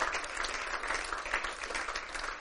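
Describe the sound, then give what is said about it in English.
A church audience claps hands in a steady, even stream of applause during a worship service, soft and unbroken for the whole stretch. “Give the Lord a hand clap tonight.”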